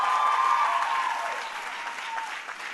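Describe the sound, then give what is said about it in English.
A crowd applauds at a commencement ceremony at Barnard. The dense, sustained clapping is heard alone and eases slightly toward the end. “I recognize that's a cheap applause line when you're giving a commencement at Barnard.”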